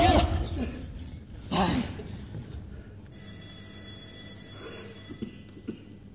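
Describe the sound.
Electronic telephone ringing in a stage drama set in a factory office: steady, high, buzzing ring tones start midway and continue for a few seconds, after earlier loud voices and a brief laugh.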